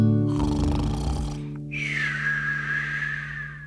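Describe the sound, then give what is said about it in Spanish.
A voice imitating snoring in a children's song: a rough, drawn-out snore gives way to a long, high whistling exhale. “Ahora vamos a roncar. A roncar. A roncar.”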